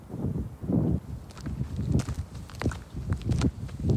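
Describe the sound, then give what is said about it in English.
Footsteps of a walker crossing a windy field where the Mount Carmel compound once stood, on the outskirts of Waco, Texas. Steady crunching steps run under a continuous rush of gusting wind. “I'm walking in the wind at what's left of the Mount Carmel compound on the outskirts of Waco, Texas.”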